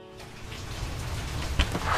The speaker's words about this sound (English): It's raining when I get there, which makes the house feel even cozier than it already is.